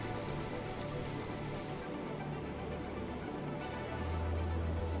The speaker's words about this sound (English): No, it's raining out?